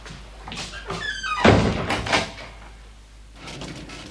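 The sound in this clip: A door shut and locked in a German detective radio play: a heavy thud, then a second, lighter knock or click, before the sound settles into quiet.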